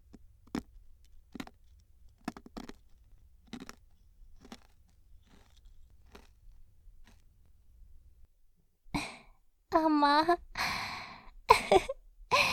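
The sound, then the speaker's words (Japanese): Crunching of konpeito, small colourful star-shaped sugar candies, eaten with tea: a long run of sharp, dry crunches at a steady, even pace, then a voice speaking. “おいしい。なんや、久しぶりやわ、コンペイト。やっぱりおいしい。まあ、言うたら砂糖の塊なんやけどな。”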